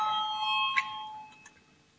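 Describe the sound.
An electronic bell rings in a parliament chamber before a vote. It gives a bright, sustained chime with a clear ringing overtone that fades out quickly, followed by a couple of faint clicks.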